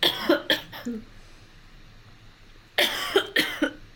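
Coughing fit from a person with a scratchy throat during an interview: two clusters of harsh, loud coughs, about three in each, separated by a quiet pause of nearly two seconds.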